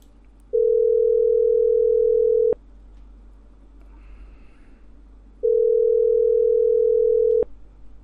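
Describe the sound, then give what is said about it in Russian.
A telephone ringback tone on an outgoing call: two long, steady mid-pitched tones of about two seconds each, separated by a pause of about three seconds, over a faint background hum. “Сейчас еще Сережки наберем.”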